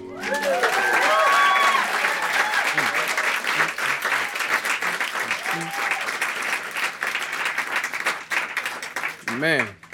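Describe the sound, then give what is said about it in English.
Loud audience applause at a live music show, a dense continuous roar of clapping with cheers and whoops from the crowd, strongest at the start and easing slightly, voices calling out near the end. “Y'all can clap for Lex.”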